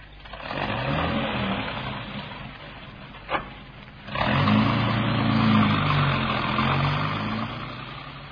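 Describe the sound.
A car engine revs up and drives off with a low, steady rumble that swells loudly after a short pause and a brief click, then holds fairly even.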